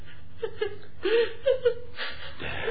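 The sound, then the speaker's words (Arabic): A person cries in the night, with broken sobbing whimpers in short, uneven bursts of wavering, moderately loud voice and small catches of breath between them. “ده صوت حد بيعيط.”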